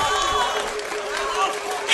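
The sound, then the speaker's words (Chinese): A theatre audience applauds and cheers after a Peking opera performance of Mu Guiying, a dense, even patter of clapping with voices mixed in throughout. “你听听外边的喝彩声。”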